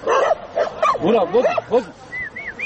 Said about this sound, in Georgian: ძაღლები თავს იყრიან.